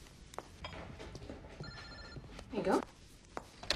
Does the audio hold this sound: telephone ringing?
yes